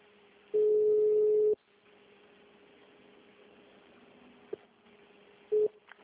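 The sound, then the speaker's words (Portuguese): Telephone ringback tone while a call to a diagnostics clinic is forwarded: a steady mid-pitched tone lasts about a second, then a long stretch of faint line hiss, and a second tone starts just before the end. “Bem-vindo à MS Diagnósticos. Estamos encaminhando sua ligação.”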